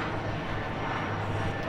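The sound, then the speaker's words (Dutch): Aircraft droning overhead during a music festival in Ruigoord, a steady, even roar of engine noise that holds for the whole moment without clear peaks. “Wel een beetje verstoord natuurlijk door de vliegtuigen.”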